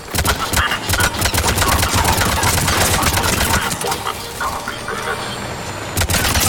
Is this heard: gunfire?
yes

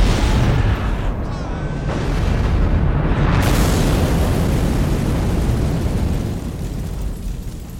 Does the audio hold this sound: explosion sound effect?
yes

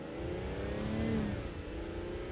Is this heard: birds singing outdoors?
no

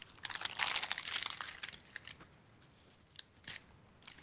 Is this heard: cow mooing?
no

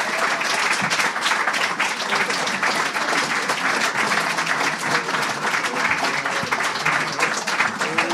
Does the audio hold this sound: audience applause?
yes

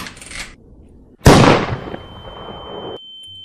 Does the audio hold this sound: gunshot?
yes

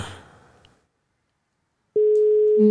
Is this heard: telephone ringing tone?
yes

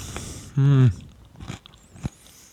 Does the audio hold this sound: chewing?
yes

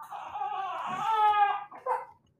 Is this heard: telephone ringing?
no

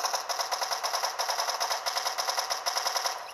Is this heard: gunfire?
yes

